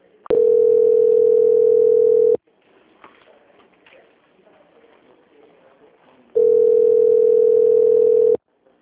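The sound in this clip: Steady telephone line tone during a call transfer: two loud, long beeps at one constant pitch, each about two seconds, with about four seconds of faint line noise between them.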